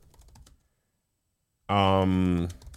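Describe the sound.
Light clicks of typing on a computer keyboard while writing an email: a short run of soft taps, then a pause before a voice briefly sounds.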